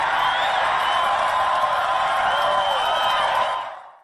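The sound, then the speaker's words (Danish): Crowd cheering at a Donald Trump rally: a dense, sustained roar of many voices with scattered whoops, holding steady and loud before fading away at the end. “Folk er ellevilde til det her møde, det her rally. Han står og holder, der er mange mennesker, som der altid er.”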